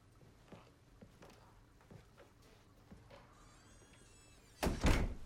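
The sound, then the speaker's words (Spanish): A door is shut in a psychiatric consulting room, landing as one loud, brief thump near the end after several seconds of faint, quiet background sound. “Pasan a la consulta y ella cierra la puerta.”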